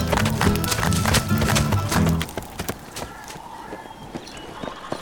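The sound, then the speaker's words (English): Hoofbeats of horses being ridden swiftly under a starry sky. A dense, rapid clatter of hooves is loud for the first two seconds, then thinner and quieter. “We rode under a starry sky, making swift time back to Doubtful, and pulled in around 9 or 10.”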